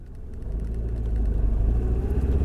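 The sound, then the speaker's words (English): Car engine rumbling while driving, a low, steady drone that grows slightly louder and then holds, with no voices. “Okay, so I'm driving up to the park now.”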